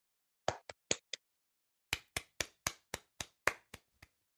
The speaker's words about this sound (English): That was a little bit long tapping, but I hope people borrowed it, because when you tap along, the listener or the viewer can borrow the benefits